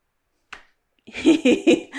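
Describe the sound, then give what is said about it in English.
A single sharp hand clap sounds once, a brief crisp smack that stands out against silence. “I'll let you edit that clap out.”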